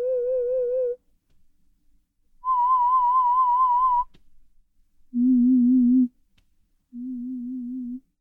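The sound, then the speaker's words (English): Four hearing-test tones at different pitches play one after another, each a steady pure beep about a second long with silence between. The second is the highest; the last two are the lowest. “How well can they pick up sounds at different frequencies? Sounds like this.”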